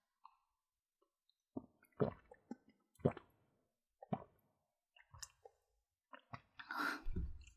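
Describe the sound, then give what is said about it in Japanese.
Soft wet gulps and clicking swallows of a person drinking water, a handful of short, faint sounds spaced roughly a second apart, ending in a slightly longer, louder wet noise. “お水飲んでいいですか。お水飲みます。”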